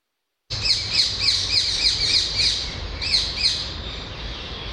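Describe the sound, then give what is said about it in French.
A ring-necked parakeet, an introduced exotic species, calls loudly and alone in a rapid series of shrill, harsh screeches at an even rhythm, with a brief lull before a final burst. “La perruche, effectivement, c'est la perruche à collier.”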